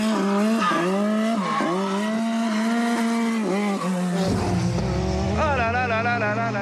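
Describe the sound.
A race car sliding through a drift on a track, its engine loud and continuous, revving up and down in repeated surges, with a high squealing tire tone rising over a rough low rumble near the end.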